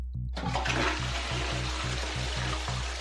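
A water-saving toilet with a nano coating flushes after a moment of silence. A sudden, loud rush of water follows and stays steady and gurgling to the end.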